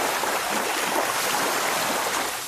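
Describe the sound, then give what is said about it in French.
Loud, steady rushing and splashing of river water in the Jordan as a cloak strikes the surface. It forms one continuous churning wash with no separate blows standing out and no voices. “Il prend le manteau en main et il va vers le Jourdain. Il frappe sur l'eau”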